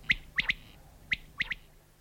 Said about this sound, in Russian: Или замечают ветку, на которой птица чаще всего поет, и привязывают к этой ветке микрофон. Таким способом мне удалось записать пение многих птиц